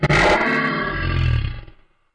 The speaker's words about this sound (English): am the king of the jungle, said the lion. He then let out a loud roar